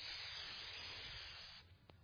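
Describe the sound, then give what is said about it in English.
A voice imitates a hiss, mimicking Satan hissing during a sermon: one sustained, breathy hiss lasting about a second and a half, fairly faint and steady, then cutting off abruptly. “Satan's hissing.”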